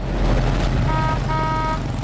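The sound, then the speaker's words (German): Mopeds and motor traffic in a Hanoi street make a dense, steady rumble, and two short horn tones sound through it partway along. “7 Millionen Menschen leben hier und fahren auf 4 Millionen Mopeds durch die Innenstadt. Hanoi ist laut, hektisch”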